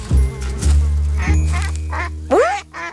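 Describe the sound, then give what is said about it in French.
Ducks quacking near a large pond: a run of several loud, nasal quacks at an uneven pace, heard alone with no talking. “quand il entend... Tiens, des canards.”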